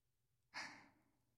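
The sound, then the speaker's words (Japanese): A single close breath, a soft airy exhale heard right at the ear, swells suddenly and trails off over about a second. It is faint and breathy, with no talk. “私の息遣いが聞こえてきて、本当に近くで話しかけられてるみたいですよね。”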